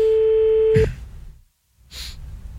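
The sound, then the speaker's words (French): Telephone ringing tone on an outgoing call: one steady, clear tone that cuts off abruptly, followed by line noise, a brief silence and a return of soft hiss. “bon, attends, je l'appelle Jackie”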